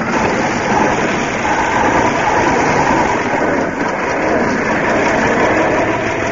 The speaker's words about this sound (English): Wait a minute. We're moving. Yes, we're moving. Quick, let the clutch in.